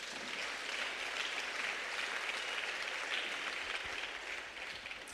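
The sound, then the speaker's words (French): Church audience applauding during a French-language prayer service to acclaim the Lord, a faint but steady, continuous patter of many hands clapping that holds level throughout and eases slightly at the end. “On va prier ensemble. Acclamez le Seigneur.”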